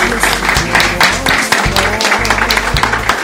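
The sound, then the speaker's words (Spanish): An audience claps at an acoustic music show, with uneven bursts of clapping running through the whole clip over low, sustained tones. “un aplauso ya que estamos”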